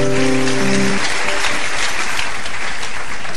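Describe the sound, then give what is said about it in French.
Audience applause at a religious service, loud and steady, a dense continuous clatter of clapping hands that holds its level for the whole stretch, with a brief tonal sound fading out at the start. “Allez-y, pourquoi pas l'acclamer.”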